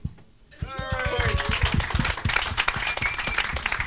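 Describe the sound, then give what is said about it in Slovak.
Audience applause at a Slovak gathering, with the crowd clapping for itself at the close. A brief quiet opens, then dense, steady clapping starts and keeps going, with a few voices mixed in near its start. “ja vám ďakujem, že ste tu boli a a zatlieskajte si za to, že ste to vydržali.”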